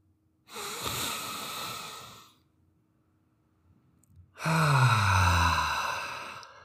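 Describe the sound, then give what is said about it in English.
A long breath in through the nose is followed, after a pause, by a deep breath out through the mouth. The exhale is louder, with a low voiced growl that falls in pitch, imitating a tiger, during a bedtime relaxation exercise. “nice deep breath in through your nose and breathe out through your mouth like a tiger. Do it with me. And again.”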